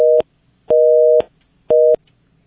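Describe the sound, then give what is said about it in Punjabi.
A telephone busy tone follows a caller's line being cut off: three steady, identical-pitched beeps with short silent gaps between them, loud and alone. “ਲੱਗਦਾ ਬਈ ਬਾਈ ਜੀ ਦੀ ਜਿਹੜੀ ਕਾਲ ਕੱਟ ਹੋ ਗਈ ਆ”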